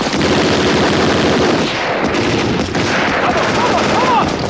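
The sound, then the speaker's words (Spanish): Machine gun covering fire in a war film: loud, dense, continuous automatic gunfire with heavy booming bursts that carries through the whole clip. “Los soldados toman posiciones al pie de la torre. ¡Fuego de cobertura!”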